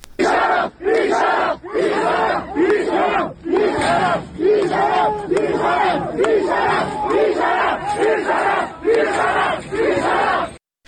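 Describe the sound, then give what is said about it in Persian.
Medical sciences students at a university in Ardabil, Iran, chant protest slogans: loud, rhythmic shouted phrases from a crowd in regular bursts, with brief pauses between them. “از ویدیوهای منتشر شده هم فضای التهابی در این دانشگاه کاملا مشخص هست. صدای این اعتراض ها را از اردبیل میتونیم بشنویم.”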